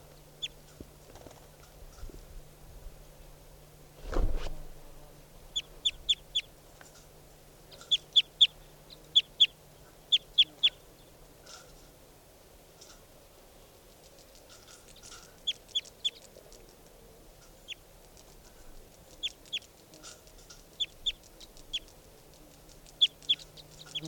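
Bird calls: short, high chirps repeat in quick clusters over faint background noise and a low steady hum, with one brief dull thump early on.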